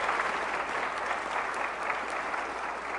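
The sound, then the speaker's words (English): An audience applauds to thank an event crew, with dense, even clapping that holds steady for the whole stretch without a break. “Y'all give the Oaks a hand and thank them for everything.”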